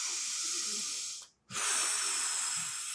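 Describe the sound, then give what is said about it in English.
A demonstration of slow yoga-style breathing, used to get through contractions: a long, steady, airy breath, a brief silent pause, then another drawn-out breath. “it was just kind of like, it's kind of like yoga breathing”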